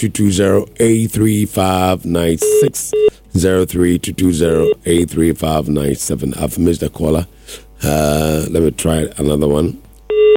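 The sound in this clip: Telephone dialing tones and short ringing beeps go unanswered during a radio phone-in, brief electronic tones recurring under almost continuous talk.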